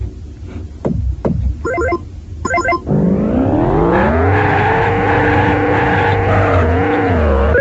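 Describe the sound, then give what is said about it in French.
Racing cars in a video game race: a few short electronic beeps and thuds, then a loud engine whine that rises in pitch and holds steady at a high drone. “Je vous rappelle que sa voiture, c'est la bleue, tandis que celle de Laurent le testeur, c'est la rouge.”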